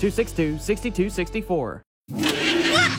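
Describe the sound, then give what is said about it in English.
Old clunker car engine roaring: a loud, rough, noisy roar that bursts in after a short voice and a brief silence. “What is that? It sounds like a monster. Just my car. It's an old clunker.”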